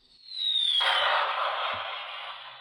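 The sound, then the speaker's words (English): A bomb-drop sound effect: a thin, high whistle slides down in pitch, then a loud blast bursts out and settles into a long, crackling roar that slowly fades. No voices. “Yes, that is a bomb dropping on the leisure and hospitality industry.”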